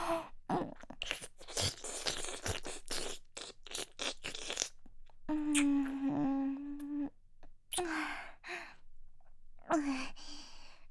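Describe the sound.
Wet mouth sounds of nibbling and licking at an ear, many quick crackling, smacking clicks and slurps with a soft, breathy voiced sigh in the middle of the sequence.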